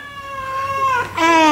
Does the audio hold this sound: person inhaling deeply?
no